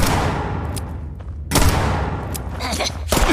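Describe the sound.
Gunfire erupts during a video game shootout in a mine, with a few sharp, loud shots and booming reports breaking through a rough, noisy backdrop.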